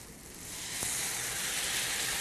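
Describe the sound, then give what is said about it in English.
Marinade sizzles as it goes into a frying pan of translucent, softened onions. The hiss swells over the first half-second, then holds loud and steady, with one brief click as it builds. “We're gonna put in our delicious marinade.”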